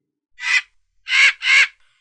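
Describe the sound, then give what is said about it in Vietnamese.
Harsh, crow-like excited cries of red monster birds as a sound effect: three loud, raspy calls, a single one followed by a close pair, with no other sound. “Quái điểu màu đỏ kêu lên vẻ hưng phấn”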